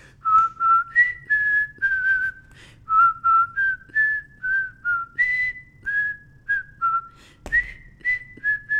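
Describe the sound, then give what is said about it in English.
A whistled tune rides over intro music, with many short, clear notes stepping up and down in pitch in a lively, steady phrase, loud above a low musical accompaniment. “Like the whistling, the”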